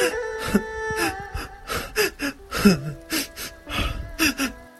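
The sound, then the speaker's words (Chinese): A woman crying loudly while clutching a doctor's trouser leg: many wailing, voiced sobs broken by sharp gasping breaths, rising and falling in uneven bursts. “抱住李大夫的裤脚，大声哭泣起来。”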